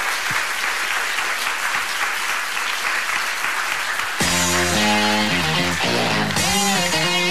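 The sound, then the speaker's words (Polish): Audience applause for an award winner at a talent awards ceremony: a steady, dense wash of clapping that runs alone for about four seconds, then gives way to music with clear sustained tones. “Dziękujemy bardzo i raz jeszcze oklaski dla naszej laureatki Justyny Wasilewskiej.”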